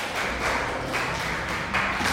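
Group clapping during a lesson on family terms, fairly loud, in a few short rhythmic bursts of claps.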